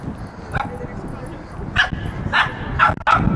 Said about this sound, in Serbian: Sad imamo i, i psa koje laje i vatar.